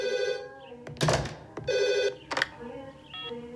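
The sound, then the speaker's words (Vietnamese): A telephone rings in an office: a few repeated, bright electronic rings with steady tones, separated by short pauses and a couple of brief, harsher bursts. “Con nghe máy giùm tôi được không? Tôi đang bận.”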